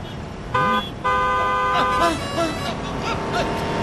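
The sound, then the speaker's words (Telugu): Car horn honking at a pedestrian walking on the road: two loud blasts, a short one then a longer one, followed by people talking. “Horn కొట్టినా మీకు వినిపించడం లేదు”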